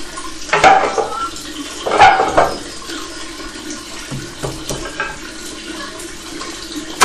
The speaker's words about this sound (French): faut pas trop traîner à le mettre sous la presse parce que vous entendez tout le petit lait qu'on perd.